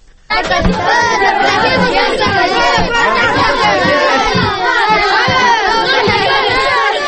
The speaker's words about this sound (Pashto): دا د افغانستان په جنوبی ولایت هلمند کې د ماشومان د لوبو یو سیمه ده. په دې ځای کې هر ورځ په لسګونو ماشومان لوبي سره کوي.